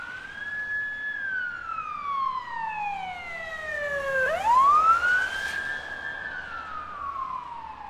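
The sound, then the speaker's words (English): A police car siren wails on a street in one long, slow cycle: the pitch glides steadily downward, then sweeps sharply back up and holds high, moderately loud, with no talking over it. “Oh, here comes the police. Hang on here. I gotta cover my ears.”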